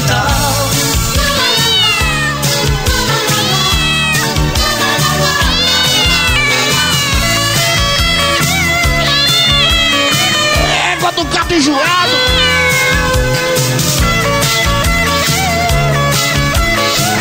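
Repeated cat meows over loud, dense dance music during a live DJ set, the wavering meow cries rising and falling above a steady beat.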